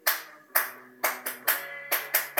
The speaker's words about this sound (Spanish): Perdonad esos aplausos de alguien en la calle que es medio retraso mental y se ha puesto a aplaudir en mi ventana, porque el programa no está siendo grabado en estudio.